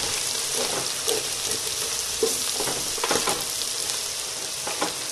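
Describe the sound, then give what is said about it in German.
Onions sizzle and fry in a pan while being stirred, a steady bright crackle broken by a few louder scraping strokes of the spoon. “Dann schiebe ich die Zwiebeln jetzt so ein bisschen schon mal in die Mitte.”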